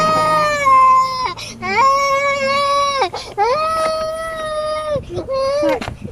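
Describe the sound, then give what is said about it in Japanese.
A baby cries in several drawn-out, high wavering wails separated by brief catches of breath, loud and insistent, while an adult voice speaks in between. “これ何になる、子供の何のためになる。もう無理やわ、泣いてるもん。”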